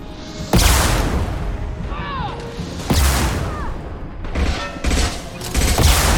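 Rocket fire and explosions in a video game: several loud, sudden blasts, each followed by a rumbling decay, with brief whistling tones between some of the hits.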